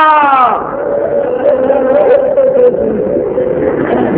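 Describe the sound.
A crowd at a religious gathering shouts a slogan praising Husain. A single voice falls away into a loud, sustained roar of many voices chanting together.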